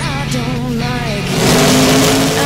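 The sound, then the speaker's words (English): A car engine idles with a droning, harmonic tone, then revs up and grows louder and fuller partway through. “And it just gives a little rev. And you're waiting for it. Here comes the exciting one. And here we go, there's rev.”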